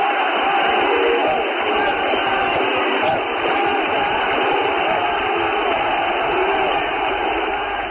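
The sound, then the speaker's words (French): About 150,000 Greek Cypriots cheer and chant for Archbishop Makarios's return in Nicosia in December 1974, a continuous, dense roar of voices with a muffled, band-limited quality. “Macarios, nous sommes avec toi. C'est par ces mots que près de 150 000 Chypriotes grecs ont acclamé le retour de Monseigneur Macarios quatre mois et demi après le coup d'État de la junte militaire”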